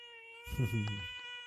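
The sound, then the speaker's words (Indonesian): A female cat meowing: one drawn-out, fairly loud meow with a rising then falling tone, over a steady faint background whine. “Ya, itu tadi suara Sultan kucing betina.”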